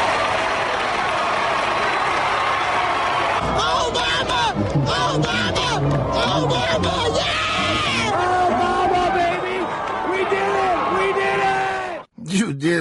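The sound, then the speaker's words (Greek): Loud, dense crowd noise of American fans celebrating a victory, with cheering and shouting voices running continuously until an abrupt cut near the end. “Πάμε όμως να πάρουμε κλίμα από τους Αμερικάνους κάφρους που πανηγυρίζουν τη νίκη του Μαύρου.”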